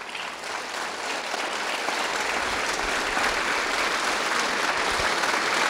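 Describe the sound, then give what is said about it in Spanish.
Loud applause from a church audience during a Eucharist Mass, a dense, steady wash of clapping that holds at full strength for several seconds with no speech over it. “Y le damos al Padre Luis Eduardo Toro, aplausos fuertes.”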